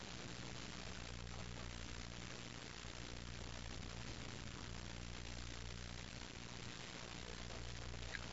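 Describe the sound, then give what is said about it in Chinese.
Droning roar of Free China air force aircraft flying over during President Chiang's review of the armed forces, a steady, unbroken engine rumble with constant loudness and no voices. “自由中国的空军飞机”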